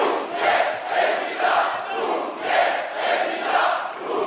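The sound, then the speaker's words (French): An audience chants the name of a fake presidential candidate at a comedy show staging a mock political rally. The loud, rhythmic crowd chant comes in two rounds of three beats. “Il prononce tout un tas d'inepties et il demande au public de scander son nom.”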